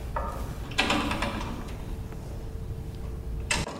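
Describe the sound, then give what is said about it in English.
A door locking from the outside, heard as two brief mechanical clunks several seconds apart over a low, steady background rumble. “as soon as you hear that noise, the doors are locked on the outside”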